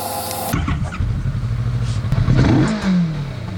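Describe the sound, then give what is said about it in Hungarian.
A motorcycle engine, recorded with an external microphone, runs loud and rough throughout. Near the end a rev rises in pitch and then eases back down. “This is what my bike sounds like with an external microphone.”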